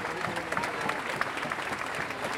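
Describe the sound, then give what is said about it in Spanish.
Crowd applause for an organizer at a gathering: dense, steady clapping that holds at an even level throughout, with many overlapping sharp hand claps. “Nico, y quiero que le demos un gran aplauso”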